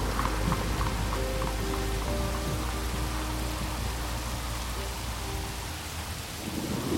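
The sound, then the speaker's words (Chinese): A thunderstorm brings heavy rain pouring in a dense, steady roar, with deep rumbling thunder underneath that eases slightly near the end. “乌云密布，雷声轰轰，甚至开始刮起了狂风暴雨。”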